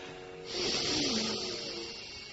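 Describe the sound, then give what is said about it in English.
A slow exhaling breath during a seated breathing exercise: a soft, airy hiss swells in after a quiet start and holds steadily to the end. “Like we have done before, exhale,”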